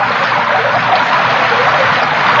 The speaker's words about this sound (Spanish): El líquido matabichitos caía en abundancia.